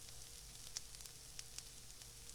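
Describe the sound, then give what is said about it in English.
Food fries in a pan with a steady, quiet sizzling hiss, broken by a few small pops. “Now we're going to cut this and fry this up.”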